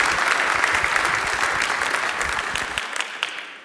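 A church audience applauding a welcomed guest with steady, dense, loud clapping that tapers off and stops at the end.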